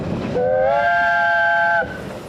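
A train whistle on a railway near Beddgelert in Snowdonia National Park gives one sustained blast, steady in pitch, lasting over a second over a continuous rolling train rumble.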